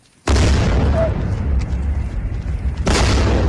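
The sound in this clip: An explosion during a Russian attack on Kyiv at night: a sudden, very loud, heavy roaring blast that sustains for a couple of seconds, then surges again near the end.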